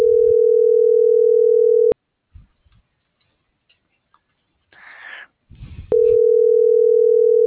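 Steady, loud telephone tone on a transport line that goes unanswered. It cuts off abruptly, leaving a few seconds of faint clicks and rustling, then returns at the same pitch.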